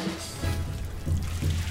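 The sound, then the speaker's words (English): A water-wheel trash-collecting machine with a shell of stretched fabric and metal splashes and clatters in Baltimore's Inner Harbor, with steady watery rushing and a few low, rhythmic thumps. “This is the sound of the giant armadillo that is trying to reproduce in Baltimore's Inner Harbor. It's a clattering, splashing machine covered with a shell of stretched fabric and metal.”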